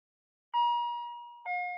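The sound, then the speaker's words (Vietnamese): An elevator bell gives a clear two-note chime after a short silence. A ringing tone slowly fades, then a second, slightly lower note follows. “Tiếng chuông thang máy cắt ngang dòng suy nghĩ của Thắng.”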